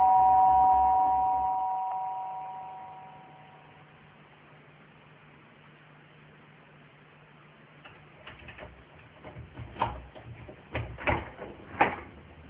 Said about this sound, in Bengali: এসব ভাবতে ভাবতেই কলিং বেল বেজে উঠল।